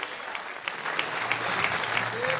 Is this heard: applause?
yes